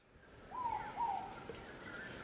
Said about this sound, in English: I'm on Anchor Island watching the most amazing scene. We're watching three kākāpō chicks all being vigorously fed by their mum, Hine Moa.